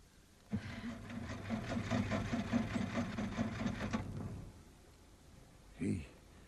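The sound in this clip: An engine cranks without starting: a steady, rapid rhythmic whirring for about four seconds that stops without the engine catching, followed by a brief voice.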